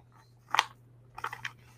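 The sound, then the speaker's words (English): Carrots being tossed and mixed to coat them in liquid smoke, making two short bursts of wet, crunchy rustling with quiet gaps around them. “All right, so I've got my carrots here. I'm just gonna mix them up, get them all coated in this delicious flavor.”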